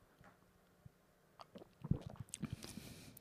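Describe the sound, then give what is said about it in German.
A sip of strawberry-flavoured tea: faint wet slurping and small mouth clicks, quiet at first and clustering into a few soft bursts over the second half. “Ich nehme einen Schluck.”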